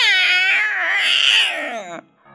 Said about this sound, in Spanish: Cuando el gato llega, no puede meter sus garras. Se queda rasguñando la piedra y maulla de un modo horrible.